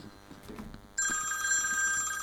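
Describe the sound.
Telephone ringtone that starts abruptly after a second of low background noise, then holds as a bright, steady electronic ring with a high sustained tone until the end, fairly faint overall.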